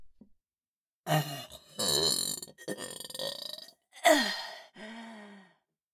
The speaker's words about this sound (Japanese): お下品なゲップ、こいちゃいました。